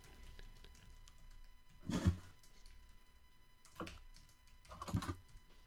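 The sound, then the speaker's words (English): Faint keystrokes on a computer keyboard as a search is typed, coming in three short, scattered clusters of soft clicks and thuds in otherwise near-silence, with no talking. “just let's go to the great oracle of Google and just type United States Space Command.”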